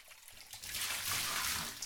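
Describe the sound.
Water rinsing something away down a drain: a steady, hissing rush that starts faint, swells after a brief quiet opening, then holds loud and even to the end.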